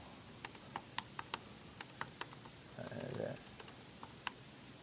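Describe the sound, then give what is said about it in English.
Quiet typing on a computer keyboard, many sparse key clicks in an irregular rhythm over a low steady hiss. “however many I can only type so fast”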